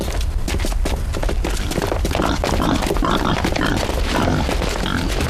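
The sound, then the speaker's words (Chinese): A wild boar grunts in a loud, rough, continuous stream of low snorting noise with no pause. “是头野猪”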